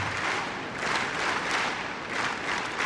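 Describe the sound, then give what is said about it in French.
Rhythmic clapping from a tennis crowd cheering on a Czech player, a steady dense patter of many hands that swells and eases in regular pulses, with no talk. “Et le public qui met du rythme, vous l'entendez, qui encourage la Tchèque.”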